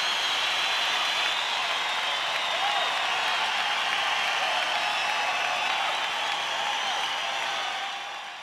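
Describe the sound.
Dense, continuous applause for a voice actor being introduced, a steady wash of clapping that holds for about eight seconds before fading at the close.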